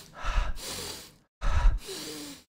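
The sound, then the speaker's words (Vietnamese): Two rounds of deep breathing, each a rushing inhale through the nose followed by a longer, airy exhale through the mouth, done to keep nasal mucus from flowing back; loud breaths with a brief pause between cycles and no talk. “mình sẽ làm cái biện pháp là hít bằng mũi, thở ra bằng miệng”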